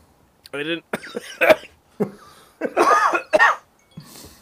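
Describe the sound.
Coughing from someone who retrohaled too much cigar smoke: a few harsh, strained bursts with short voiced gasps between them, fairly loud and irregular.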